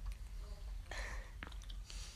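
Someone chews plain gummy bears from a variety pack, making soft, moist smacking and squishing sounds in a few short bursts. The chewing is quiet and close.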